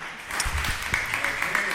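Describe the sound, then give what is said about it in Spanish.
Audience applause for a guest speaker, a brief spatter of clapping mixed with a talking voice. “Muy bien, bueno, un aplauso para María José.”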